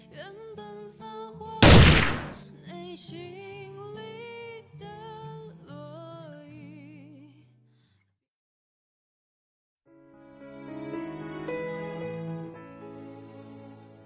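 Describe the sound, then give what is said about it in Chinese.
A single sharp, loud gunshot from the video game The Invisible Guardian cuts through melodic music. The music later stops for a couple of seconds of silence, then resumes. “本来以为自己的意识会立刻分离出去，毕竟子弹射穿身体可是很快的。但是好疼，是腿上的疼，那么清晰。子弹射穿了你的腿，”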